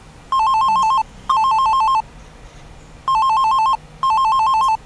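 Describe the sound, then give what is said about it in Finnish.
A telephone rings in two double bursts of a loud, warbling electronic tone. Each burst lasts under a second, with a short gap inside each pair and a longer pause between the pairs. “Varmaan siltä ensimmäinen soittaja soittaakin.”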